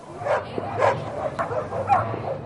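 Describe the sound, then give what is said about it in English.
Happy dogs bark and yip playfully in an irregular run of a few quick barks, with higher whiny yelps mixed in. “This is the sound of happy dogs.”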